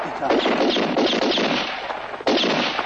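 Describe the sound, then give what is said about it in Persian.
Soldiers fire their guns in a dense, continuous barrage of rapid cracks and booms that overlap into a loud, rough roar, with one sharp burst standing out near the end. “سربازها شلیک میکنه.”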